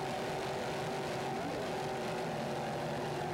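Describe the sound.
Super V class racing powerboats, Fountain and Outer Limits hulls including a 40-foot boat, roar as they battle. Their engines make a dense, unbroken, steady drone throughout.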